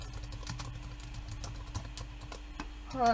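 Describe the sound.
Rapid typing on a computer keyboard while entering test notes for an app, with many light, uneven clicks running steadily throughout and no talk over them.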